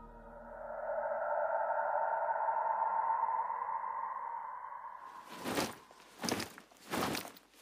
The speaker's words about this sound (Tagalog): Ano ba yun? Ba't parang may nagmamarcha sa taas?